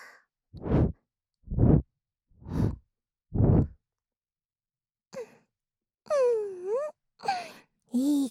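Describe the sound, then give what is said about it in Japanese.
Gentle blowing of air in four soft, breathy puffs at an even pace, each rising and fading smoothly, followed by a few soft voiced sighs. “じゃあこっちもちょっとふうふうしましょうか。”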